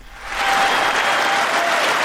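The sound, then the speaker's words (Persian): Applause in the US Congress for President Joe Biden before his annual address. Dense clapping rises over the first half second, then holds loud and steady throughout. “تشویق جو بایدن رئیس جمهوری آمریکا در کنگره این کشور قبل از سخنرانی سالانه‌اش”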